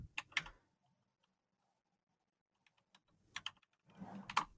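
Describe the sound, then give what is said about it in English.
Quiet keyboard typing comes in a few short clusters of keystrokes, separated by stretches of near silence. “Oh, boy. I don't know what I just typed in.”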